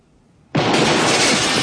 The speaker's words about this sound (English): A bomb blast shatters the window.